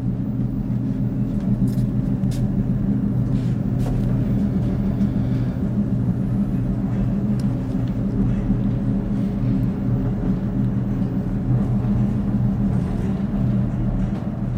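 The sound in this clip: A theatre stage platform lift drives down into the understage, giving off a continuous low mechanical rumble with a steady droning hum that holds evenly throughout.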